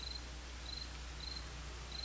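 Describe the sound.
Crickets chirping at night, sounding as four short, high-pitched trills spaced evenly apart over a faint, steady background hiss and low hum.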